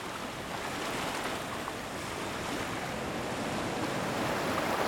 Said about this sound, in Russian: Ну-ка, как вы думаете, а что теперь за звук? Это звук моря.